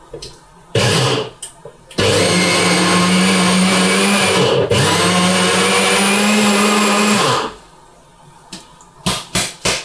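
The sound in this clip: A blender grinds nuts into a powder: a couple of short pulses, then a loud, sustained whirring run of about five seconds with a brief dip midway, after which people talk.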